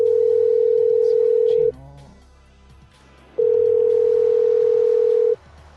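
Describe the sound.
A steady telephone dial tone sounds while an automated phone tree is navigated. A loud, constant tone runs for about two seconds, breaks off while a person talks, then returns for about two more seconds, with talking beneath it.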